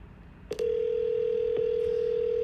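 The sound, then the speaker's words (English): Telephone dial tone as a call is placed: a couple of quick clicks, then a steady, unbroken mid-pitched tone holding on, with another faint click partway through. “Calling somebody else now.”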